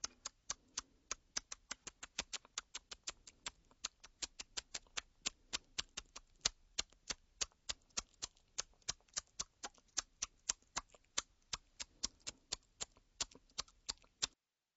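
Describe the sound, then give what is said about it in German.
Tongue clicks for echolocation, made by pressing the tongue against the palate just behind the teeth and pulling it back quickly: many sharp, quiet clicks in a steady, fairly rapid series, with no voices. “Man muss dazu die Zunge unmittelbar hinter die Zähne an den Gaumen drücken und dann schnell zurückziehen.”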